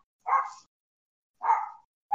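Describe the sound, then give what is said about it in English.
An old dog barks three short, fairly quiet barks, evenly spaced with silence between them. The last bark is cut off at the end. “Yes, that's my dog. My dog who is slowly falling apart.”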